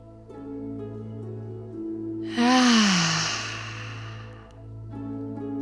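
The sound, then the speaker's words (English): A single long, slow breath swells loud and sigh-like over a steady low humming drone, then fades away after about a second and a half. “Exaggerating the breath out. Inhaling.”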